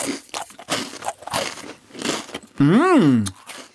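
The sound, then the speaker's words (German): A thin, thumb-length Serbian biscuit like a butter cookie is broken and bitten, making dry, crisp crunches in a few separate bursts. “Es ist so lang wie mein Daumen, würde ich sagen, aber ganz dünn und sieht aus ein bisschen aus wie ein Butterkeks. Ich breche den mal durch und ich esse mal.”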